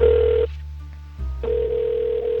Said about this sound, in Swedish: Jag ringde upp en person som heter Gary Kramer